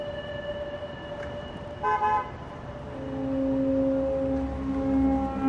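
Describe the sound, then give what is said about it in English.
A car pulls up at a street corner at night: a short horn toot sounds over a steady tonal hum, followed by a swelling engine rumble as the vehicle arrives. “A car pulls up.”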